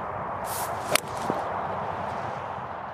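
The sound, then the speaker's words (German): A golf shot played with a 5-iron into the green on a course hole: one crisp, sharp impact stands out briefly against steady outdoor background noise. “Jetzt hier ins Grün auf Spielbahn Nummer 8 in Marienburg. Für mich leider schon wieder ein Eisen 5 in der Hand.”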